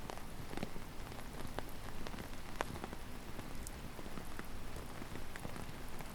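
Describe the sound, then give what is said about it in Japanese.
Sudden rain patters in a soft, even hiss with faint scattered drop taps, steady and quiet throughout with no voices. “突然の雨に感謝だね。”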